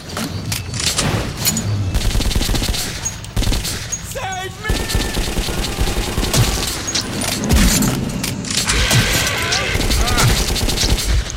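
Dense video game gunfire during a shootout against many enemies: rapid, overlapping bursts of shots and booms that stay loud and continuous throughout.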